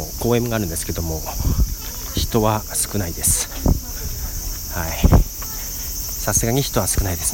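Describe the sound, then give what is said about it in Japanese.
Cicadas keep up a steady, high-pitched buzzing drone in a park by Nagoya Port on a humid, rainy day, running throughout beneath a person talking. “ていうか普通にセミ鳴いていつもと一緒じゃんっていう感じだよね。”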